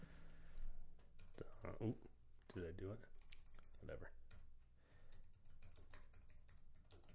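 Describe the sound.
Typing on a computer keyboard produces soft, scattered keystroke clicks beneath people talking, with irregular taps that continue through the conversation and come through faintly.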